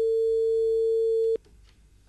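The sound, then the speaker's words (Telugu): Telephone line tone on a radio phone-in call as a caller is connected: one continuous mid-pitched note that cuts off abruptly, leaving low, quiet noise. “Hello FM కార్యక్రమంలో first call చూద్దాం.”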